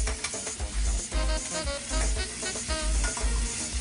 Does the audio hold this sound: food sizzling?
yes